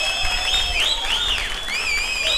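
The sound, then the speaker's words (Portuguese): An audience applauds a performer at a show with a band, a steady wash of clapping topped by high, sliding whistle tones. “Uma salva de palmas pra ele aí, gente, por favor, vai.”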